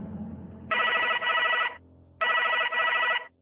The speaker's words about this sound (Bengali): ফোনটা বেজেই যাচ্ছে, ধরছেও না।